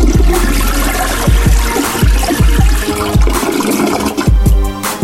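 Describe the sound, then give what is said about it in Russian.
A toilet flush rushes as a steady wash of water noise laid over a hip-hop beat, with regular deep bass kicks pulsing underneath throughout. “Приговор я вынес, сливаю в унитаз вас.”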